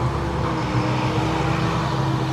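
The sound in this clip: A loud tractor pulling a larger tank drives past, its engine a steady, heavy, low rumbling drone that stays loud throughout.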